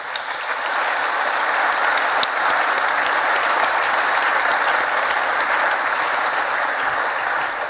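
Audience applause welcomes a Dresden political scientist joining a panel discussion. The clapping is loud and sustained, holding steady for the whole stretch with no voices over it.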